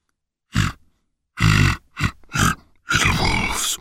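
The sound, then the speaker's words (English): A voice imitates a pig grunting at a door, giving five low, rough grunts in quick succession, the last one drawn out longer than the rest. “The pig knocked on the door and grunted,”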